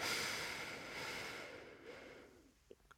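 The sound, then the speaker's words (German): Slow inhalation during a guided breathing exercise: a steady, breathy rush of air that gradually fades over about two and a half seconds, followed by a couple of faint clicks. “Ein, zwei, drei, vier beim Einatmen.”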